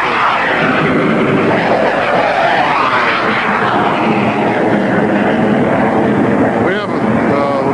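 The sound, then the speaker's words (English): Two aircraft flying simultaneous loops, one clean with landing gear up and the other with gear down, produce a loud continuous engine roar whose pitch sweeps up and down as they turn. “We have two aircraft doing simultaneous loops. One of the aircraft is clean, has all its landing gear up. The other one is dirty, has the landing gear down.”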